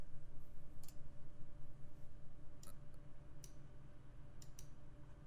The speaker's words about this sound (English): I just clicked on Apple Podcast Preview. Let's see, if I click to listen.